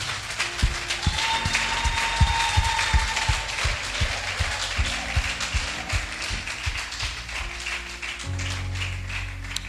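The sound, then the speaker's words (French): Applause from a church audience during a worship service, dense steady clapping that carries on throughout, with low sustained tones underneath. “Est-ce qu'on peut acclamer la personne du Saint-Esprit?”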